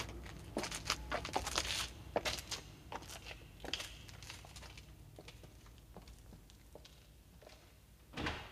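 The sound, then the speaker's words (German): Careful, quiet opening and closing of a door as someone comes in from the cold outside. Soft knocks, clicks and rustles are scattered through the first few seconds, then a stretch of near silence and one last muffled thump. No one speaks. “Komm rein, mach keinen Lärm, schließ die Tür vorsichtig.”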